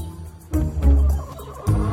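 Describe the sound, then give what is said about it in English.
A rooster kept indoors in a bedroom clucks in a few low, throaty bursts close together. The sound is fairly loud and heard alone, with no talking. “Why is the rooster in my bedroom?”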